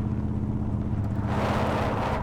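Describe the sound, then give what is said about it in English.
A car engine roars with a steady, dense rumble that grows brighter and noisier partway through, as if the car is pulling away along a street. “The engine came to life with a roar, and they soared along the street”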